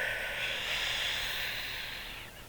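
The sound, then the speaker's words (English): A single deep breath drawn in, a loud, steady airy hiss lasting a couple of seconds before it tapers off at the end. “take a deep breath”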